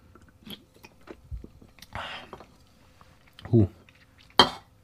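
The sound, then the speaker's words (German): A sip taken from a drink, heard as a brief slurping rush, followed by a dull thud and a sharp clink as a glass or cup is set down, with soft tableware knocks around it. “ich werde noch mal ein bisschen einen Schluck nehmen hier.”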